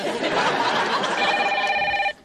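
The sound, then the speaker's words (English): A telephone rings with a steady electronic tone that starts partway through and cuts off abruptly, heard over a constant busy murmur of background noise. “Aren't you going to get it? I can let a phone ring, can you?”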